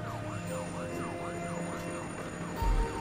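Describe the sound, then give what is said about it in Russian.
Ambulance siren from an emergency vehicle among cars beside a railway track with a stopped train: a loud, fast rising-and-falling wail repeating steadily throughout, with a brief low rumble near the end. “Среди машин скорая помощь, автомобиль спецслужбы.”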